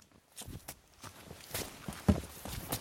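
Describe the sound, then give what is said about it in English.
Footsteps of people hiking up a mountain trail in New York's Adirondack Mountains: faint, uneven crunching steps in a loose rhythm, with one sharper, louder footfall near the end. “We've been hiking maybe 20 minutes and we come to a ledge of rock framed with shimmering light.”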